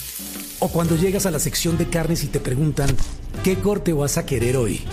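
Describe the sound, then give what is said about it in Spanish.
Meat sizzling on a grill gives a steady crackling hiss under continuous talk throughout. “¿Sabes que la carne está en su punto cuando la parrilla suena así?”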